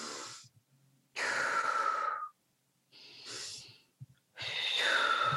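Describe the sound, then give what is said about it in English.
Deliberate breathing, with inhales through the nose and exhales through the mouth. Four loud, airy rushes of about a second each are separated by short pauses, and a small click falls before the last one. “just take like 5 breaths, right? Just in through the nose, out through the mouth. They look like this, or they sound like this.”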